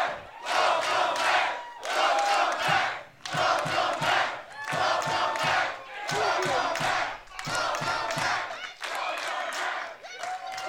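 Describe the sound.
A wrestling crowd chants in unison, the same loud phrase repeated in many rhythmic bursts separated by short dips, with scattered whoops and claps mixed in.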